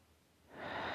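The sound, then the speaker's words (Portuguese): A deep inhalation during a guided breathing exercise in a relaxation session, a soft, airy rush of breath that starts after a moment of near silence and swells to a steady hiss, heard alone without talk. “Agora a gente vai inspirar,”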